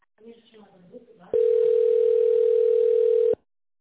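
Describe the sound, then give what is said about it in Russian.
A telephone tone plays while a call is transferred to an operator. A brief faint voice comes first, then one steady, unbroken tone holds at even loudness for about two seconds and stops abruptly. “Ваш звонок переводится оператору. Пожалуйста, оставайтесь на линии.”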